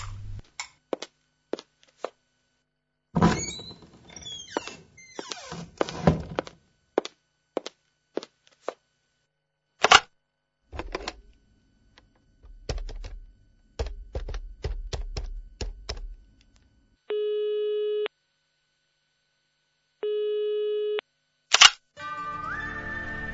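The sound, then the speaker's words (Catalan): A telephone is dialed and rings: many sharp, irregular clicks and taps of varying loudness, then two evenly spaced bursts of a steady ringing tone separated by silence. “Així que la truco.”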